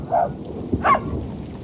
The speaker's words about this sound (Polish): No i zobacz, znowu się rozpadało. Deszcz nam wejdzie do radia. I wiatr? I wiatr, tak, z wiatrem.